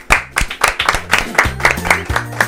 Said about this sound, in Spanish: Ahora tenemos ya preparados en cabina a quien recibimos con un gran aplauso.